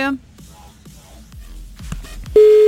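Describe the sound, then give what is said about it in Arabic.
Telephone line tone on a call to a radio listener: a voice talks briefly, then a steady, loud, even-pitched tone begins and holds to the end. “انا ما عم بتصل بالرابح، انا عم بتصل هيك بس لحتى نستمتع مع بعض. يلا عم نتصل ب”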